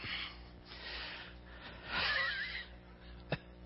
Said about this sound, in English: Are you snorting? Because I like that.